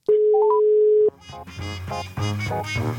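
Telephone dial tone while placing a call: a steady, loud, mid-pitched tone lasting about a second with three short higher beeps stepping up over it, then it cuts off and music follows.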